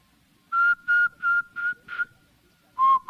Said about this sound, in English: especially if you were to whistle at a lower pitch, where you have to make a larger hole between the lips through which to whistle